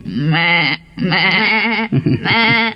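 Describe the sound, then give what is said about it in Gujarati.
A goat bleating: three long, loud, wavering bleats with a nasal, trembling pitch, separated by brief pauses, with nothing else in the background. “આ તો બકરી બેન આવ્યા.”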